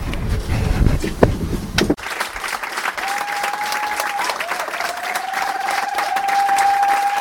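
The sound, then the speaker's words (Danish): Audience noise at the Bådteateret theatre fills the background as a dense, steady patter of clapping and crowd murmur, fairly loud and continuous throughout. “Det var svært at finde en lille krog til dette interview, så derfor kan man godt høre lidt publikumsryster i baggrunden.”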